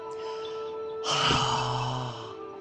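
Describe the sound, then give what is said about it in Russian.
A deep breath drawn in and let out as an audible, breathy exhale during a guided relaxation exercise: one loud airy rush lasting just over a second, with a steady low tone beneath it throughout. “И теперь сделайте глубокий вдох и выдохните со звуком.”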